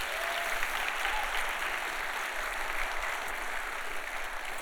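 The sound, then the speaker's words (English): Audience applause during a church service, a steady, even wash of clapping hands that holds at a moderate level from start to finish. “Let's give them a hand, please, as they...”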